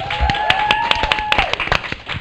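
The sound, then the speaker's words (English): Scattered hand claps from an audience at a panel event, sharp and separate, landing at uneven intervals and fairly loud rather than merging into a dense roar. “Applause, please.”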